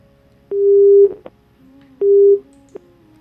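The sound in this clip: After a failed call-in, a telephone line gives two steady, low-pitched beeps, each ending in a small click. The tones sound alone with no talk.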